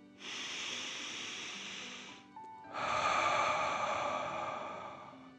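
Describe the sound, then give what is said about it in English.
Deep, slow breathing: a long airy inhale and then a long exhale, each lasting a couple of seconds, soft and steady with no talking. “let's take 3 more deep dragon breaths. Deep breath in and out.”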